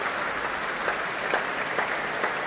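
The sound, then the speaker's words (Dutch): A concert audience applauding conductor Fabio Luisi with dense, even clapping from many hands, a few sharper claps standing out, sustained throughout. “Dat mogen blijken uit dit grote applaus voor Fabio Luisi.”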